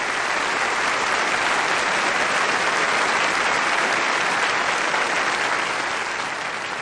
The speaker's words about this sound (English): I think we ought to stand up and give him an applause for that.